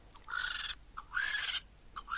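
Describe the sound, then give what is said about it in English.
A vulture call: a few harsh, drawn-out cries that rise in pitch, each preceded by a short sharp note. The cries are fairly loud and heard alone, without voices. “That is the sound of a vulture.”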